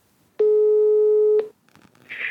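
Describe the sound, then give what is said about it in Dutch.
A telephone ringing tone while a call is placed: one steady, mid-pitched tone lasting about a second, followed by faint clicks and a soft hiss. “We besluiten Peter nog eens te bellen.”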